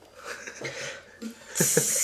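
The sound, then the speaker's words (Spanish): A beer bottle is opened with an eye socket and then teeth: soft handling rustles and breathy noises lead into a sudden, loud, sustained fizzing hiss at the end. “Sí, espera un momento, meter una cerveza. ¿Tú sabes cómo se abre en Cartagena?”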